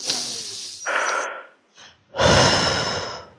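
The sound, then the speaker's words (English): A deep breath taken during a guided forgiveness exercise: a couple of audible, breathy inhales and a faint short breath, then a long, loud exhale. No talking. “And breathe.”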